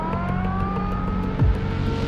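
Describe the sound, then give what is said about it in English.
A police car speeds down a street, its engine giving a steady, droning hum with a brief, louder swell and a quick downward sweep of low pitch just past the middle. “A police car speeds down the street.”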